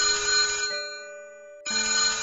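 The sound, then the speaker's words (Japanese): An old-fashioned desk telephone rings with a loud, bright bell tone in two bursts separated by a brief pause, alone without talk. “机の上の旧式な電話機がびっくりするような音で鳴り出しました。”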